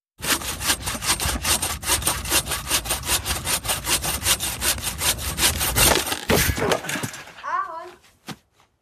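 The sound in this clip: A saw cuts through wood in fast, steady back-and-forth strokes, loud and rasping, then breaks off into a few sharp cracks as the saw breaks, followed by a short vocal sound.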